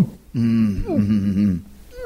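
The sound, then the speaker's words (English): A voice imitates the involuntary breathing contractions that come after holding the breath too long underwater while spearfishing or freediving. It is one strained, groaning voiced sound about a second long, with a wavering pitch, heard alone. “I started getting those involuntary compressions or whatever it's called, where you hold your breath so long and you're so exhausted that you start going like...”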